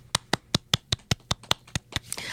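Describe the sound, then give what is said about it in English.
Hand clapping in a slow, steady rhythm: ten crisp, evenly spaced claps, each sharp and distinct, followed by a rising wash of noise at the end. “We should clap.”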